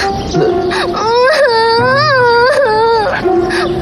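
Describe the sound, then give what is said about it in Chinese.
A young woman crying, with loud drawn-out wailing sobs whose pitch wavers up and down in long tremulous cries that follow one another with barely a pause. “姑娘，你别哭了，姑娘。”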